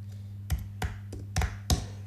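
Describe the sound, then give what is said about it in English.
Keystrokes on a computer keyboard while a football club's kit is searched for: a few distinct, evenly paced taps over a steady low electrical hum, with no talking. “Can you click on, type in PSM Makassar kit?”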